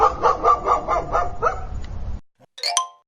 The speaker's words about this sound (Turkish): Köpek.